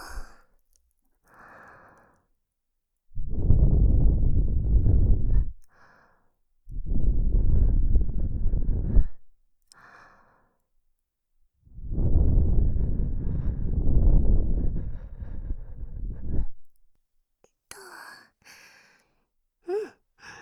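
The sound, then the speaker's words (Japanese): Breath blown onto something in three long, soft gusts separated by quiet pauses, each a steady airy rush of several seconds, with faint breathy sounds in between. “はい、息を吹きかけるよ。”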